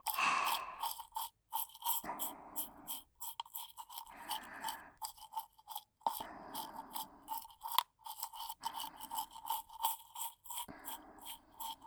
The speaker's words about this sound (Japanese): 顎はクイッとしたままで磨かせてもらうよ。はーい。シャカシャカシャカシャカ。